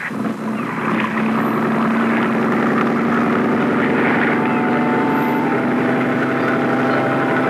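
Boat engine at sea, a loud continuous droning rumble with a steady humming tone that holds fairly level throughout, no voices.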